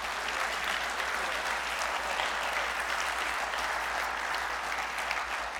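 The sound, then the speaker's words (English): A church audience applauding during a morning service, a dense, even clatter of many clapping hands held at a steady level from start to finish. “Let me hear your hands this morning.”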